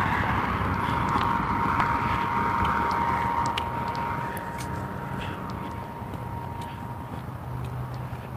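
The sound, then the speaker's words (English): A vehicle passes on a road during a walk with a broad whooshing roar that holds strong for a few seconds and then gradually fades, a faint steady whine running through it. “the sounds of vehicles passing, like that one.”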